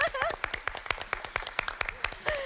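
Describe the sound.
A quiz-show contestant claps for himself: many quick, sharp hand claps in an even, steady rhythm, with brief bits of voices talking over them.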